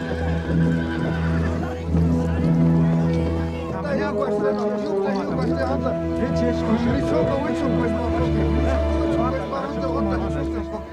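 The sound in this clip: Horses neigh and whinny as a group of ponies approaches a village, and people talk throughout under the animal sounds.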